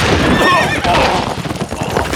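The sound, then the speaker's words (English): A horse whinnies loudly with a high, wavering cry as its hooves clip-clop beneath it, the neigh fading into a steady, scuffling beat of hoofbeats. “The stricken horse tumbled to the ground, tossing its rider almost in front of Rusty.”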